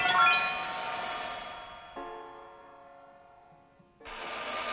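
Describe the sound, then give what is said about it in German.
Telephone bell ringing from a phone resting on a sleeper's stomach: a bright, metallic ring that gradually fades, then a loud ring starts again near the end. “Das Erdbeben war das Telefon, das auf meinem Bauch rumpelte, wo es stehen geblieben war, als ich einschlief. Ich wusste genau, das war Jake. Ich ließ es klingeln”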